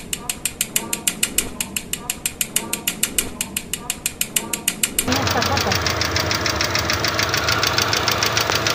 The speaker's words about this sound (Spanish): También cuando las punterías están descalibradas se escucha de esta manera.